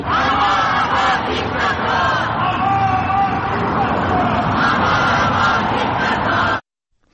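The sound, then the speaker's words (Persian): A crowd of Iranians chants slogans against Islamic Republic officials outside its embassy, waving lion-and-sun flags. The dense, continuous roar of many voices holds steady and then cuts off abruptly near the end. “ایرانیان در مقابل سفارت جمهوری اسلامی حاضر شدند و با در دست داشتن پرچم شیر و خورشید و زن زندگی آزادی به ضد مقامات جمهوری اسلامی شعار سر دادند.”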